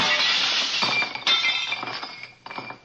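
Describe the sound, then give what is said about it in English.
Glass shatters as a baseball crashes through a laboratory window. A loud bright burst of breaking glass is followed by scattered tinkling clinks of falling shards that gradually thin out and fade. “baseball crashed through the window of my laboratory.”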